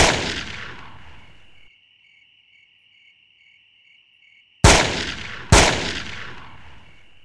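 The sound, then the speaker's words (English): Shotgun fire in an ambush, aimed down from a ledge over a road at a police officer: the fading tail of one blast, a stretch of steady cricket chirring, then two sharp, loud blasts, each with a long decaying tail. “Whoever was waiting for him, whoever had planned this attack, fires down upon him with a shotgun.”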